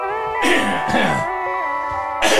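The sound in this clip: Throat clearing by someone who says a feather is caught in the throat: a couple of rough, raspy bursts over a steady tonal background.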